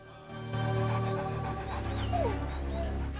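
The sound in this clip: Dogs chasing after tigers, panting and whimpering over a steady, loud, low rumbling backdrop that persists throughout.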